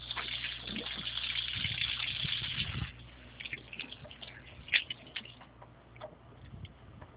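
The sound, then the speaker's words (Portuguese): Hands are washed under a running tap, with a faint steady rush of water for about three seconds, then quieter trickling dotted with small clicks and ticks. “Vou lavar a mão de novo”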